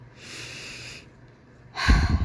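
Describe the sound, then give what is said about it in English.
A deep breath: a soft, airy inhale lasting about a second, a short pause, then a louder, rougher exhale through the nose and mouth, with no talking. “I want you to take a deep breath with me here.”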